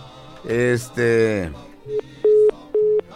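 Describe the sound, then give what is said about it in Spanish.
A telephone call cut off, leaving the line tone: after a stretch of talk, a few short, evenly pitched beeps of a busy signal pulse on and off. “Ándale, se le cortó la llamada, parece,”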